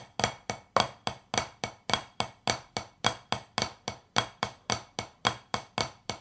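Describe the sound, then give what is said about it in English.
Flam tap drum rudiment played with sticks: a steady, unbroken stream of many crisp strokes in an even, repeating pulse, with no talking. “I'm going to take one of my favorite exercises, which is called, you know, the flam tap, something that we play a lot.”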